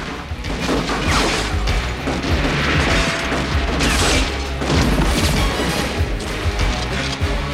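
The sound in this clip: Gunfire in a shootout among a lift, pillars and a reception desk: a loud, sustained barrage of booming shots and crashing impacts runs throughout with no letup.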